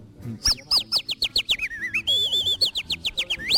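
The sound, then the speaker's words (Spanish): Canary song: a lively run of many rapid, high chirps and quick falling whistles, with a few brief warbling trills in the middle, bright and fairly loud with no voices. “Crea tu propio repertorio de animales tan fieros como el canario,”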